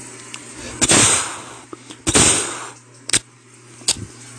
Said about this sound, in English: As he primed the rifle again, the creature was already gone. The shots had missed.